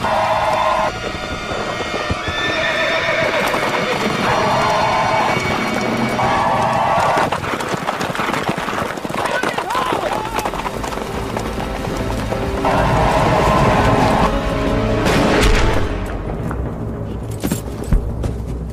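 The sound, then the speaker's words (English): Cavalry horses gallop into a Sioux camp in a loud, dense rush of pounding hooves. The clatter runs continuously through the whole stretch with no spoken words. “As they gallop into the Sioux camp, Custer makes a tactical decision and splits his cavalry into four parts.”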